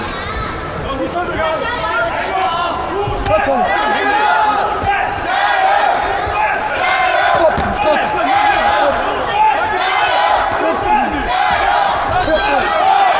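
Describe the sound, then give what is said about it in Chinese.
A fan club cheering for an athlete in a sports arena: a continuous, loud crowd roar of shouts, chants and chatter, with a commentator talking over it. “我们现场也有朱帅的粉丝团啊，在为朱帅加油助威。”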